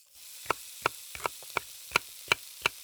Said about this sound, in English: Scene 1. Jack's mother is cooking some food.